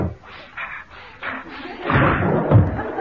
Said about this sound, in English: Excuse me, Mrs. Lyon. I really must open the window.